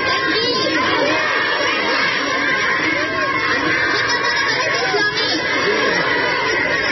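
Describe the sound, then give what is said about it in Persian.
A crowd in Kunduz chants Allahu Akbar to welcome the Taliban-declared Islamic Emirate government. Many raised voices shout and cheer together in a continuous, loud, dense mix. “در گوشه ای از شهر قندوز نیز افرادی با استقبال از دولت موسوم به امارت اسلامی صدای الله اکبر سر دادند.”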